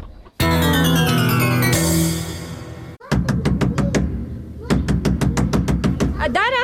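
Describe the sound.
Hurried knocking on a door follows a sustained musical chord: many rapid, sharp knocks come in two quick bursts separated by a short pause.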